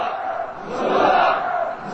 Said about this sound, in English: The crowd chanting, "Let's implement it," meaning the government's policy goals.